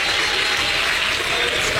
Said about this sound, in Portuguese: Pode bater palma e dar glória a Deus, igreja.